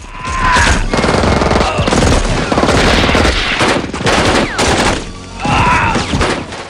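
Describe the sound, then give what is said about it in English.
Rapid gunfire as Special Forces soldiers are shot down on a bridge, the enemy firing from nearby buildings. Dense, loud volleys of many shots run almost without a break, with heavy thuds mixed in. “The Special Forces are sitting ducks. Ugh. The CO catches a bullet in the shoulder and falls from the bridge.”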